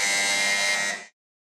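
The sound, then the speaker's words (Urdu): A single flat electric buzz from a quiz show buzzer, pressed by a contestant answering first in a Quran quiz. The buzz holds steady for about a second, then cuts off sharply into silence. “اس بار سب سے پہلے buzzer بجایا ہے”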